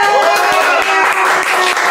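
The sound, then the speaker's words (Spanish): A live audience applauds loudly with thick, continuous clapping, while a few voices and tonal sounds mix in through the noise. “Momento, antes de que aplaudan los borrachos allá. Los borrachos, cálmense.”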